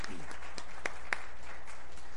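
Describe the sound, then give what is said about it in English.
A round of applause from an audience: soft, steady clapping throughout, with a couple of sharper claps near the middle. “y'all give her a round of applause”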